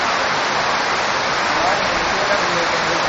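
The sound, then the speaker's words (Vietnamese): Heavy rain falls as a steady, dense hiss that holds at an even loudness for the whole stretch, with no distinct single drops standing out. “trời mưa lớn quá”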